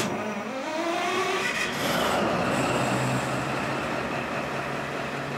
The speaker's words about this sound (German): Wir fahren erstmal nur mit der leeren Lok allein